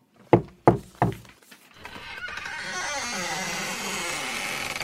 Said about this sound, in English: walked down the footpath and knocked on the door